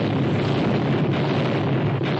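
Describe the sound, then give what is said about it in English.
Explosions ripping through a burning ship, rising from its bow: a continuous, dense, loud roar of blasts and fire with no separate bursts and no pauses. “then a second ball of fire rose from the bow of the ship. And then another and another explosion until instead of a ship, I was looking only at fire.”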